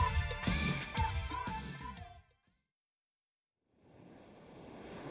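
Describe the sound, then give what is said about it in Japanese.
Gentle waves washing onto a shallow sea beach. A short burst of tonal sounds cuts off into brief silence, then soft, steady surf noise fades in and holds, faint and unbroken. “ミル海岸にやってきました。 ここは遠浅の海で、大きな船はなかなか近づけないんです。”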